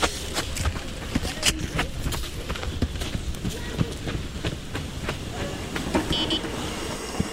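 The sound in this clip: A radio drama effect of a car following a van: a steady engine and road rumble with scattered sharp knocks and clacks, fairly faint and continuous.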